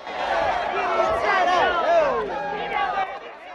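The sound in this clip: Excited crowd of many voices shouting and chattering while watching a bearded man skin a muskrat on a podium, a loud, dense babble that holds throughout.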